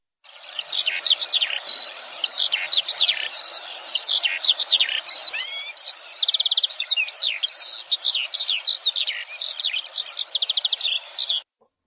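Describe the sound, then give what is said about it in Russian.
A skylark sings in the morning, pouring out a long, unbroken stream of high, rapid warbles, trills and chirps. The song keeps a busy, varied rhythm for about eleven seconds and then stops abruptly. “Жаворонок.”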